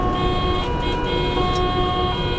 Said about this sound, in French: mauvaise horaire sur l'autoroute, il y a des bouchons.